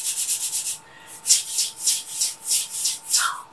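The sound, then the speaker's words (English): Wooden sand blocks rubbed together for a rhythm, giving a quick run of short, light scrapes, a brief pause, then slower, evenly spaced louder rasping strokes, with no talking. “For the first line of the song, we'll use the wood sand blocks.”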